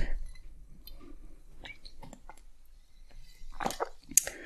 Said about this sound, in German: Und ich muss gerade einen Schluck trinken.